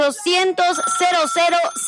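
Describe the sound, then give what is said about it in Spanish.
A telephone rings for an incoming call to a live radio show, sounding as several repeated bursts of a bright, warbling ring. “Venga, tenemos llamadita.”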